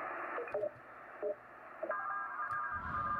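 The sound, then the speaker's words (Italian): Morse code from amateur radio operators on shortwave: faint, sparse short tone beeps at one steady pitch over constant radio hiss, with thin steady carrier tones joining toward the end. “questi sono radioamatori che parlano tra di loro in morse”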